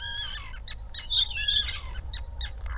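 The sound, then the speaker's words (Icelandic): A starling mimics the calls of other birds, a common crane and an arctic tern, in a rapid run of chirps, whistles and harsher calls that carries on without pause at moderate loudness. “Hér heyrum við eitt sérstaklega hæfileikaríkan stara flytja sínar bestu eftirhermur af öðrum fuglategundum. Fyrst heyrum við hermt eftir grátrönu. Og svo beint á eftir kemur kríugarg.”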